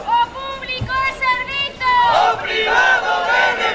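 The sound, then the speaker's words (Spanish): A protest crowd chants slogans at a public-health rally outside a hospital in Pontevedra. Loud, rhythmic shouted chanting comes first, then more voices join in a fuller crowd sound. “Concentracións de convocadas por SOS Sanidade Pública nos hospitais, por exemplo, esta que estamos a escoitar en Pontevedra”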